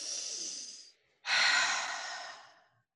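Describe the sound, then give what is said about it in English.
A deep breath taken during a guided seated shoulder-and-hip twist exercise: a soft, airy inhale of about a second, a short pause, then a longer, louder breathy exhale that slowly fades away, with no talking. “And then a nice deep breath.”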